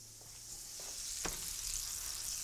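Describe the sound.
Butter sizzles in a hot pan while an egg in a hole is cooked in a waffle, a soft steady frying hiss with one sharp clack of a utensil partway through.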